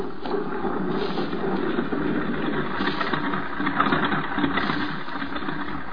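An aircraft engine idles while taxiing toward a crash site, a loud, steady, rumbling drone that holds constant throughout with no talk.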